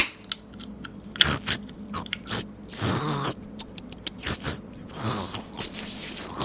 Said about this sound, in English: Found a vending machine with a Monster Energy drink. I got it.